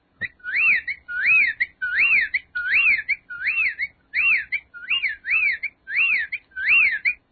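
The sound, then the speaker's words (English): Whippoorwill calling: about ten loud, clear whistled phrases repeated in a steady rhythm, each a quick swooping note pattern, with quiet gaps between and no other sounds. “That is the sound of a whippoorwill, and that's another bird that apparently is disappearing as well.”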